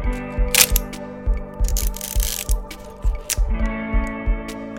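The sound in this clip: A film camera being focused and its shutter release pressed: a run of many sharp mechanical clicks and clacks, with a few brief, louder bursts of snapping noise scattered across it.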